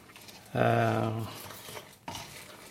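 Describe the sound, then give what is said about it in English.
A spoon stirs water into whole rye flour in a bowl while scalding the flour for yule bread. A squeaky, tonal scrape comes first, then softer stirring, then a second short scraping burst. “you pour the water onto the flour, and you stir it around a bit so the flour is soaked.”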